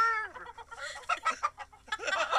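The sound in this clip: Hens cluck and squawk in a busy run of short, uneven calls. A higher, drawn-out call comes at the start, followed by choppy clucking bursts that vary in loudness.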